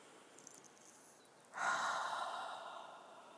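A single deep, airy breath taken during prayer and meditation starts midway and slowly fades out. It is quiet, and no one speaks.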